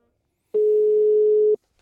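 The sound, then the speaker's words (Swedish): An outgoing telephone call produces a single ringback tone: one steady, mid-pitched beep lasting about a second, heard alone between stretches of silence. “ska vi ringa? Ja, men gör det. Slå en signal för att se vad han säger för något.”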